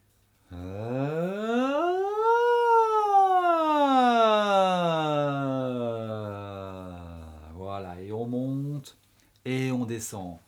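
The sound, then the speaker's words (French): A voice imitates a siren during a vocal warm-up exercise. It sings one long sustained glide that rises quickly, then slowly falls over several seconds, followed by a few brief spoken sounds. “Glissade vers le haut, glissade vers le bas. On appelle ça la sirène en fait.”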